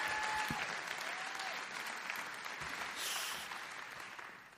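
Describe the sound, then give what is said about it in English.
A church audience applauds to welcome a pastor, with dense, steady clapping that gradually tapers off. “So if you would, put your hands together.”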